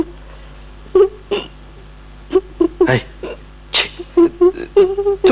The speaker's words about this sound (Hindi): Present देख कर रोने लगी? नहीं नहीं नहीं, रो मत।